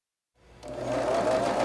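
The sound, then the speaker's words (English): A sewing machine runs at a quilting sewing day in a fabric shop while blocks are sashed. After a moment of silence, its steady whirring hum starts and builds slightly to a constant drone. “After workshops like the one in Sonoma, blocks are brought here to a sewing day at the Cloth Carousel, a fabric shop in Vacaville. We're doing what we call sashing.”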